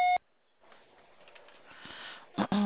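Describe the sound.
A phone voicemail box sounds a single short, loud electronic beep. Quiet line hiss follows, then a voice starts to speak.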